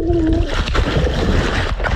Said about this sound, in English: So you continued to swim with the GoPro running in your hand. Yes. That's shocked it still kept going because it's just slapping against that water.